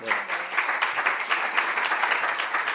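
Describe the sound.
A group of people claps hands for a birthday, a brief, brisk run of even, rapid claps merging into steady applause.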